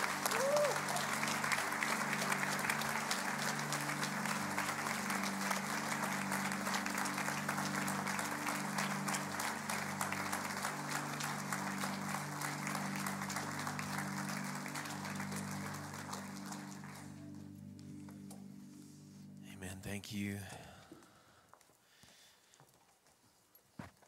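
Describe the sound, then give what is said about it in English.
A church audience claps at an installation service to welcome its new senior pastors: dense, sustained applause lasting around seventeen seconds over low, steady musical chords, then fading into quieter scattered sounds. “Westside Church, would you put your hands together and welcome your new senior pastors?”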